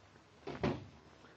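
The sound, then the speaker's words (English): A door being closed: one soft, muffled thud with a brief rustle of movement, faint and short against a quiet background. “Good night. And close the door after you.”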